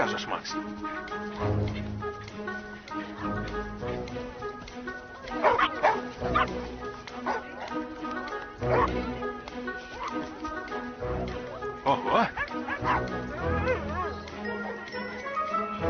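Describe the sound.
Dogs barking and yipping in a park, with many short barks scattered throughout and occasional whimpers. People talk over the barking the whole time.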